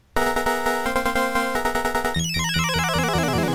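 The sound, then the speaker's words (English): Chiptune music and effects from the 1985 Namco arcade game Motos, on M6809 hardware with a custom sound chip. Buzzy held tones step through a short melody, then rapid cascading descending runs take over. Loud and alone, with no voices. “This game, kids, I chose it, and it's called Motos, or Motos, from Namco 1985.”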